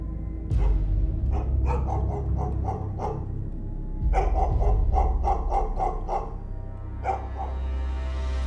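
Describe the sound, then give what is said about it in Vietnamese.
A pet dog barks intermittently in uneven bursts, with a few quick runs of sharp barks separated by short pauses and a single bark at the end. “nghe thấy tiếng con chó bà nuôi. Nó đang trõ ra đâu đó sủa nhát gừng.”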